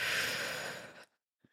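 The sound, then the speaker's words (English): A deep cleansing belly breath: one long, airy rush of breath holds steady, then tapers and cuts off abruptly, followed by near silence. “Belly breath. Exhale. One more time. Make it the deepest inhale of the day so far, a cleansing breath.”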